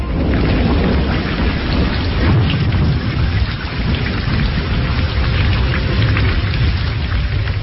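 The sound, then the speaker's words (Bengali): Heavy rain in a thunderstorm, a dense, continuous roar of downpour with crackling, rumbling thunder mixed in, loud throughout and with no voices. “শুধু যে বৃষ্টি তা নয়, সেই সঙ্গে কড়কড় করে বাজ পড়ার শব্দ”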